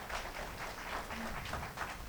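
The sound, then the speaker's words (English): A church audience gives a hand clap of praise to God during a service, a soft, dense wash of many hands clapping together that stays even and low in level throughout, with no voices on top. “So can we give God again a hand clap of praise?”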